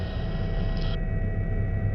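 Aircraft in flight, heading across a neighbourhood of red-tiled roofs toward a landing site, a steady, even low rumble and drone that holds throughout with no voices.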